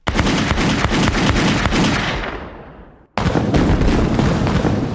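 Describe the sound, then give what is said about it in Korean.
Matchlock musket gunfire from a vanguard firing at a fortress wall in battle: a loud, dense barrage of rapid overlapping shots that fades for about three seconds, stops briefly, then bursts back in at full strength. “백여 명의 선봉대가 성을 향해서 요란하게 조총을 쏘곤 신속하게 후퇴해서 물러서곤 합니다.”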